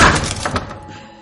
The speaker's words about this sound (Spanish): abre la puerta de la habitación